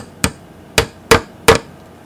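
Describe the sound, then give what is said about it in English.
A hammer strikes nails into a wooden box lid to shut it: four sharp, loud knocks, unevenly spaced, each ending quickly with a short ring. “He's nailing the lid back on.”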